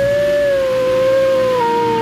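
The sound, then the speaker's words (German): A wolf howls in one long sustained tone that glides slowly downward in pitch, heard alone without voices. “Dort! Seht nur! Dort ist der Wolf!”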